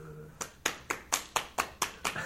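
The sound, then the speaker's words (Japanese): Rhythmic hand clapping, eight sharp, evenly spaced claps at roughly four per second, each with a quick attack and short decay, heard alone without voices or music. “これいつも手拍子何なんだろうな と思って、そうなんですよね。なんかいっぱい周りにいるんだよ っていう感じを出したい、 出したいんですけどね”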